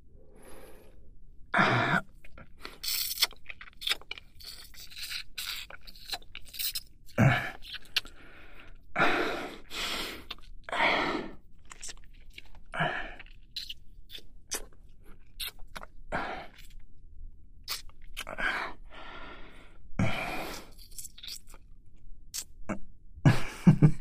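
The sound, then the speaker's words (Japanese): Wet licking on an armpit makes many short, moist smacks and slurps, which come in irregular bursts with brief quiet gaps between them. “くすぐったいのかな。かわいそうだから脇を舐めるのはこれくらいにしてあげる。”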